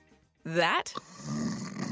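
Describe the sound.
A sleeper dosed with NyQuil Severe gives a rough, buzzing snore on the inhale, cut off abruptly and followed by a long, soft, hissing breath.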